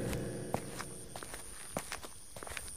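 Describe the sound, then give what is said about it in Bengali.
Footsteps climb stairs in the dark: many soft, irregular steps, faint and uneven, over a steady high hiss. “তারা সেই লোকটার পেছন পেছন সিঁড়ি ধরে উঠতে থাকে জায়গাটা এতটা অন্ধকার যে কিছুই দেখা যায় না”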